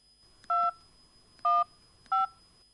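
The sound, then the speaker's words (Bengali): Three electronic keypad tones sound as a number is dialed on a mobile phone, each a short, clear two-note beep separated by quiet pauses. “Mobile করি।”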